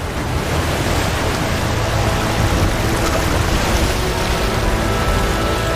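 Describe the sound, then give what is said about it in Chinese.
Rough, surging sea waves in cold ocean water make a dense, unbroken roar of churning water that holds steady and loud throughout, with no voices. “汹涌的海水成为了他面前的一道阻碍。”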